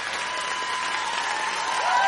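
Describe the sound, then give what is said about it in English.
A crowd applauds and cheers, with dense, continuous clapping and shouting at an even, fairly loud level throughout. “Listen to that crowd go.”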